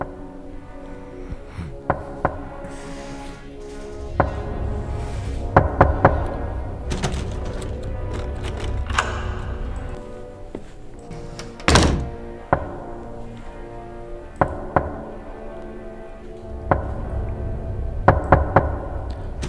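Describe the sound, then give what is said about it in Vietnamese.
A bamboo stick knocks on a coffin in many dull, hollow thunks. They land irregularly, sometimes in quick clusters, over a low rumbling background. “rồi lấy cái gậy tre gõ vào quan tài cồm cộp.”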